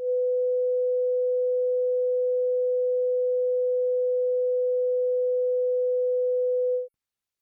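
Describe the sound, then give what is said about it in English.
Steady 500 hertz sine test tone, a smooth mid-pitched hum sustained evenly for nearly seven seconds, then cutting off into brief silence. “500 hertz.”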